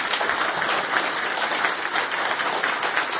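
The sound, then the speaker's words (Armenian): Steady audience applause at a ceremony honoring a military commander. Dense, continuous clapping holds at an even loudness for the whole stretch, with no speech. “Ուզում եմ ծափահարենք և ողջունենք բոլորին։”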